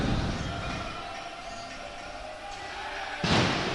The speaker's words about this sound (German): 8 Kanonenschläge für den 8. Aufstieg. Also keine Pyrotechnik im eigentlichen Sinne, aber zumindest laute